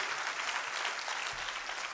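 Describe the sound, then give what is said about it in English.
A church audience claps together: a dense, steady wash of applause that holds at an even, fairly soft level without any break. “Give the Lord a big, big clap.”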